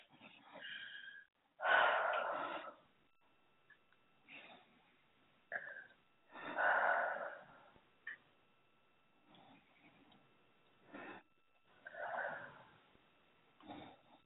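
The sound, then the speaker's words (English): Slow deep breaths during a guided healing session: soft airy rushes of inhaling and exhaling, a few fuller and longer than the rest, separated by quiet gaps, all faint and muffled. “three so nice deep breaths”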